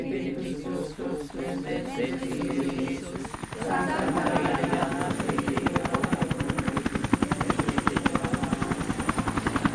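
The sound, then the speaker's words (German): A helicopter carrying Pope Benedict XVI lands at the Marian pilgrimage site of Altötting, Germany, in 2006. After a few seconds, a loud, steady rotor beat with rapid regular thudding grows in and keeps going. “Man hätte meinen können, der liebe Gott persönlich lande in Altötting, als am 11. September 2006 Papst Benedikt XVI. In Deutschlands wichtigstem Marienwallfahrtsort per Helikopter einschwebte.”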